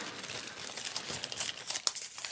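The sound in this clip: Paper slips rustle and crinkle as they are mixed and drawn from a container, a continuous dry, crackling scrunch with small sharper crackles near the end.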